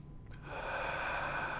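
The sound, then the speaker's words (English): A single deep breath, a long steady breathy rush of air that swells after a brief start and holds evenly, quiet and alone with no talk. “Taking a deep breath.”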